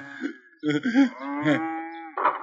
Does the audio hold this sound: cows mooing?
yes